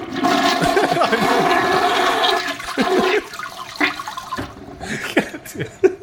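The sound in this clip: A toilet flush: a loud rushing surge of water for a few seconds, then it breaks into gurgles and trickles that taper off.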